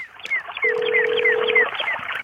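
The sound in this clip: Telephone dialing tones as a call is placed, a quick series of short, bright beeps with a steady lower tone running through the middle of the sequence.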